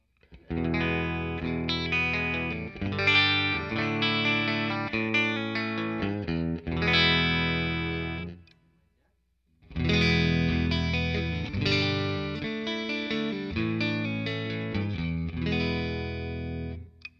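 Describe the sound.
Electric guitar chords ring out in a clean tone from a beat-up, relic'd Telecaster on its bridge pickup through a Fender Deluxe Reverb amp, played alone in two bright strummed phrases separated by a short pause.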